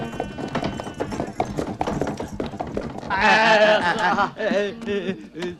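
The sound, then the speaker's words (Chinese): Hooves of a horse-drawn carriage clip-clop in quick, busy beats, and a loud voiced cry rises over them in the later part before the hoofbeats carry on. “追上前面的马车，嘿！”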